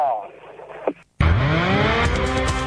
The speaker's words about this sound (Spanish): ya encendió también William Bull, el motor en marcha para Joaquín Cortina, que larga adelante